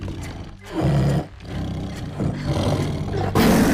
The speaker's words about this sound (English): The lion bares its fangs.